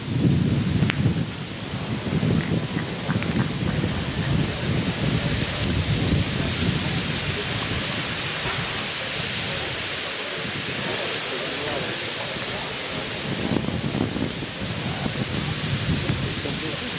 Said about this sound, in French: Et avec une belle bourrasque devant hein, qui vient de se déclencher sur ce carré d'honneur.